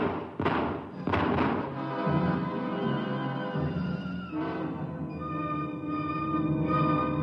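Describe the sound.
Gunshots in a tense frontier confrontation: a couple of sharp, loud, percussive reports in the first seconds, followed by a sustained tonal backdrop.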